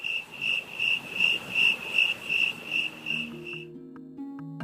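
Crickets chirp in a steady, evenly pulsed high trill for about three seconds, then fade out as low sustained musical tones begin.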